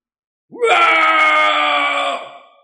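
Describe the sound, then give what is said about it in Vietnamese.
A long scream from a white-haired old man with his face lifted to the sky. One loud, sustained, harmonically rich cry rises sharply at the start, holds steady for well over a second, then tapers off. “Đột nhiên lão ngửa mặt lên trời mà thét dài”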